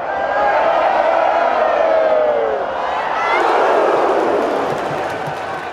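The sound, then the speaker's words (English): A large crowd cheers loudly, its roar swelling, dipping and peaking again, with whoops and shouts rising out of the mass of voices. “Like a piece of music that if you just sit and listen to the crowd, you hear like how it swells and dives and peaks and then suddenly bursts. It sounds to me like an orchestra.”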